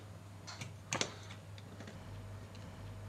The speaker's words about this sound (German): Und wenn man an dem Faden oben zieht, dann kommt das Klack.